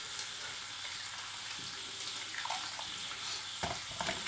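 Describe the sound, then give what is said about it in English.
Three eggs seasoned with paprika powder sizzle as they fry in a pan, a soft and steady hiss broken by a few small crackles and pops. “I fry three of them and they get some paprika powder for the taste of it.”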